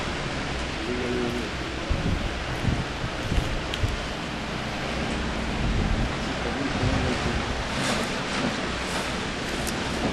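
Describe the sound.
Wind blowing on Mount Sinai, a steady broad rushing with small gusty swells and a low rumble throughout, heard alone without talk.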